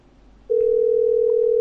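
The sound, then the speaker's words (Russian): A telephone call rings through while the person being called does not pick up. After half a second of faint hiss, a single steady electronic tone starts abruptly and holds at a constant pitch. “Звоню ей, звоню, пацаны, звоню этой Альбине. Трубку не берет.”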